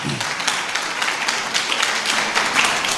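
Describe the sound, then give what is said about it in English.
Audience clapping on request: loud, dense and continuous applause from many hands, an even rattling patter with no pauses. “Can you clap a little?”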